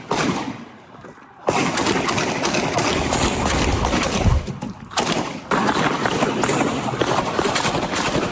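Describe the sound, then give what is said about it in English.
Gunfire from a man shooting at night near a bar in Kenosha: long stretches of rapid, sharp cracks in dense bursts, broken by a few short pauses, loud and harsh throughout. “in gunfire from a man who allegedly just killed a 33-year-old at a Kenosha bar. Here's that.”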